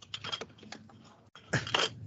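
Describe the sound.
Rustling, crinkling handling noises as someone rummages for a business card, a few crisp clicky scrapes, a brief pause, then a louder flurry of crackling at the end.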